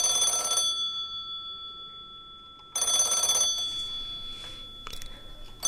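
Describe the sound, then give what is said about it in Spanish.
A telephone rings during a call: two bright, trilling electronic ring bursts separated by a pause of about two seconds. A faint steady tone runs underneath the whole clip, and there is no talking. “Lo llamamos por teléfono, yo acá tengo el teléfono.”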